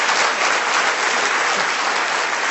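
Audience applause at a comedy show: dense, continuous clapping that stays loud and even for the whole stretch, with no voices over it.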